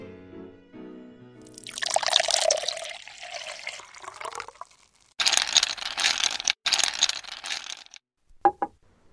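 Ardbeg whisky glugs from a freshly opened bottle in two gurgling bursts of liquid, followed by a couple of short, sharp taps.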